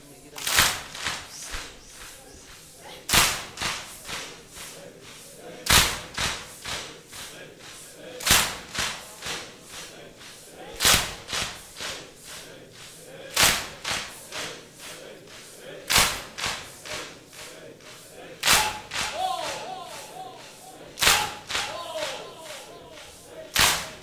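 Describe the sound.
Mourners beat their chests in a rhythmic chest-beating ritual, producing loud, sharp slaps at a steady pulse about every two and a half seconds, with softer hits and voices between them.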